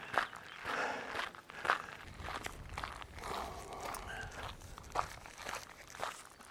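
Footsteps of someone out on a run outdoors, a steady series of crunching steps on the ground, many in a regular rhythm with a few sharper footfalls.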